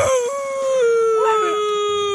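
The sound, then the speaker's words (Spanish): A dog howls in one long, sustained, wavering tone that holds a steady pitch, loud and alone throughout. “Híjole, está sufriendo ese perro.”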